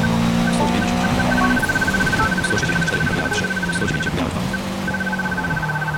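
Race car engine from the Forza Motorsport racing game as the car turns through a left hairpin: a steady, loud mechanical drone with a thin high tone beeping and then holding over it throughout.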